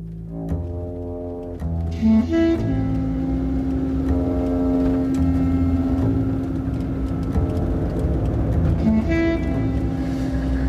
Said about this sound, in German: Findest du nicht, dass der Wagen seltsame Geräusche macht?